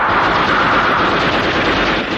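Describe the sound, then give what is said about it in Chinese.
Heavy machine gun fire in a battle against advancing cavalry forms a dense, loud and unbroken roar, with no separate shots standing out across the whole stretch. “刘红端起机枪要冲。 打！”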